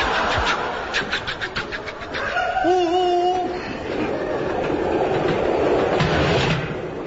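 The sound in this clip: A train rumbles steadily as a continuous, loud low roar with a hiss. Partway through, a brief high tonal whine rides above it.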